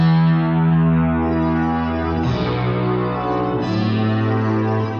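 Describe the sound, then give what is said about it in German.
Synthesizer playing a loud, buzzy sustained tone thick with harmonics and a distorted, effect-laden edge, holding continuously and shifting pitch twice, with no talk over it. “Meine klingt zum Beispiel etwas anders, wenn ich mal hier ein...”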